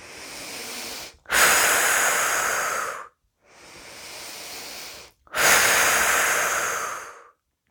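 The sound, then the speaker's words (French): Slow breathing during a guided relaxation exercise, with two full breath cycles. Each softer inhale is followed by a longer, louder, airy exhalation, and short silent pauses separate them. No talking. “Et à chaque expiration, nous évacuons les tensions.”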